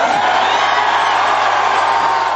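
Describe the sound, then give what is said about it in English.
A crowd cheers and applauds as Scott Morrison enters the Liberal Party headquarters: a dense, steady roar of cheering with scattered whoops that runs throughout. “And so Scott Morrison entered the Liberal Party headquarters to rapturous applause.”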